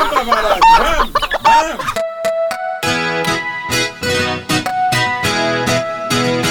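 Chickens cluck in a henhouse, giving busy, loud, squawking clucks. They are densest in the first couple of seconds, and bright tonal sounds follow.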